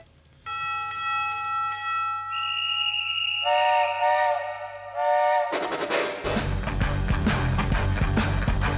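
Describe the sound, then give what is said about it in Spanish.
A steam train whistle gives a long, loud, multi-tone blast whose pitch shifts partway through, then gives way to strong steam hissing and a low mechanical rumble. “Yo tomo el tren que sale a la hora 16.”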